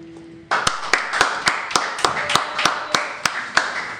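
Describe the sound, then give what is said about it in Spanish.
Applause sound effect of a small group clapping, sharp regular claps in a steady rhythm of about three per second, loud and alone after a brief low tone at the start. “Es que quedó con un aplauso curado hoy.”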